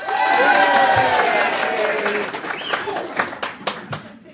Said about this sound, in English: now that's your cue to have uproarious applause. When I say in conclusion, I want you to cheer, whistle. Let's have it.